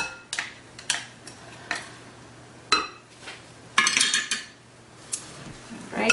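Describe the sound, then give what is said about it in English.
A utensil clinking and scraping against a dish while stirring chicken pieces coated in a garlic and ginger paste: several faint, sharp clinks at irregular intervals, with quiet scraping between them. “Give this a nice stir. Make sure that it's incorporated in all the chicken pieces.”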